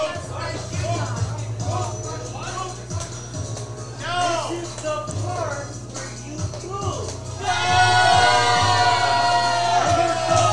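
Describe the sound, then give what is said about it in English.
A fan cheers at a wrestling show, yelling over ongoing talk and crowd murmur. The shouting grows louder and more sustained in the final seconds. “We got a fan cheering for him.”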